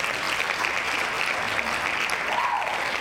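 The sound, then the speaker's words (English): Hand claps from a group applauding, a dense, even patter of many claps that stays at a constant level throughout. “Hand claps.”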